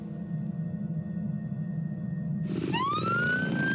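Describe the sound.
A police motorbike siren cuts in abruptly near the end with a loud rising wail that follows a steady low background rumble.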